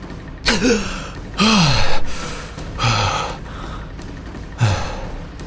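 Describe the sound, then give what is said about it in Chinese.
Four deep, loud gasps for breath from a person gulping in fresh air after nearly being smothered. Each sharp, ragged inhalation is separated by a short pause, with no speech. “新鲜的空气才涌了进来。柳纯阳大口地呼吸着”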